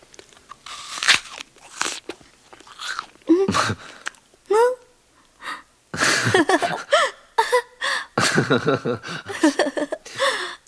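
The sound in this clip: Crunchy bites and wet chewing of a fruit by two people speaking of becoming gods, arriving in irregular bursts, with voiced moaning sounds mixed in between the bites.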